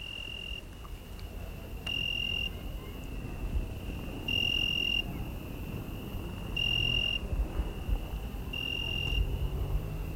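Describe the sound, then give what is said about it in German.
Cicadas and crickets chirp at night in an Italian village: a continuous, shrill, high-pitched trill with a few louder pulsing bursts recurring every couple of seconds. “begleitet mich im Dunkel der grelle Gesang der Zikaden. Es hört sich an, als sängen da in der Dunkelheit Scharen von Vögeln. So viele Grillen sind es.”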